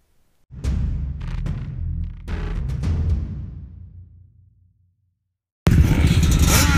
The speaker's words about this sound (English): we're here at Cache, Oklahoma for the first flag drop of the day, the Short Course A Quad Race.